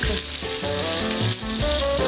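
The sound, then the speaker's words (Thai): Garlic and shallots frying in oil in a pan give a steady, continuous sizzling hiss throughout, over a background of sustained tones, with no talk. “เราจะตั้งเตาเจียวกระเทียมกับหอมแดงกันก่อนค่ะ”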